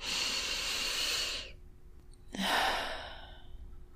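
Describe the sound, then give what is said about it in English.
A deep grounding breath taken at the start of a mindfulness exercise: two long, airy breath sounds separated by a short silent pause, the second softer and trailing off. “Let's take a moment to take a deep and grounding breath.”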